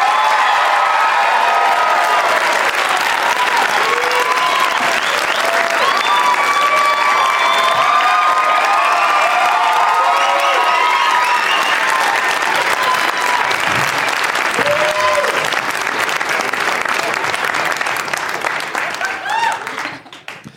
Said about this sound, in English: Please give a big, warm TC welcome to Nikki Glaser, Ben Bailey, Ted Alexandro, and Jeff Tate.